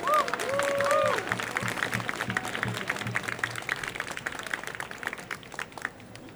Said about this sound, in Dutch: Groot applaus voor Joyce.